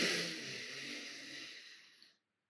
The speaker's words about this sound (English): So breathe in for 4.